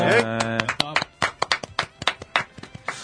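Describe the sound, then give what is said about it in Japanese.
Applause opens a live talk show: a brief voice, then a run of sharp, uneven hand claps from a small group lasting about three seconds. “拍手、”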